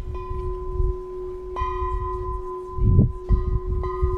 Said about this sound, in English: it's the thing that rings the bell. You can call it a striker, or you can call it a donger.